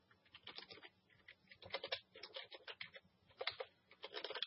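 Typing on a computer keyboard: many quick, crisp keystroke clicks arrive in uneven bursts with brief pauses between them. The tapping is fairly faint and steady throughout, with no voices.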